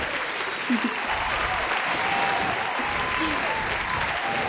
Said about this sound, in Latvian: Radio Marija klausītāji Liepājā, Krāslavā, Rīgā un Valkā aplaudē.